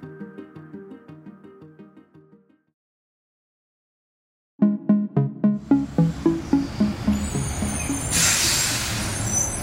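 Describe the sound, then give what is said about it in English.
Garbage truck collecting rubbish on a New York street: a steady engine rumble builds, and a sharp burst of air-brake hiss follows, over a regular thudding pulse. “It might sound like just another rubbish pickup, but in reality, it's New York's attempt to finally clean up its streets.”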